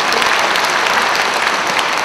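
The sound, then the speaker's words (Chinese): A church audience applauding during a sermon: dense, even clapping from many hands that forms a bright, hissing wash at a constant level, with no voices heard. “我不晓得你们鼓掌是赞同这个话对不对”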